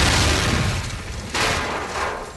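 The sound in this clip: A bomb explosion blowing up a dummy: a loud, broad, roaring blast that fills the whole clip, with a fresh surge of noise partway through before it slowly thins out.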